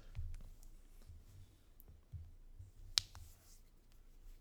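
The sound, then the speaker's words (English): Knuckles cracking: one sharp, crisp crack stands out among a few fainter clicks, all quiet and isolated, with no talking. “By the way, those of you listening, I just cracked my knuckles. It might have sounded like other things.”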